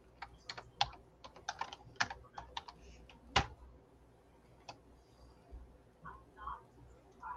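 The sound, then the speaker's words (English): Typing on a computer keyboard: a quick burst of many light, irregular keystrokes, then a few scattered clicks and faint shuffling noises, all fairly quiet. “just type in alter ego.”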